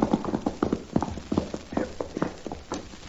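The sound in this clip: Horse hooves clip-clop as a rider arrives. Many crisp, evenly spaced hoofbeats fall in a steady rhythm, clear and fairly loud, with no talk over them.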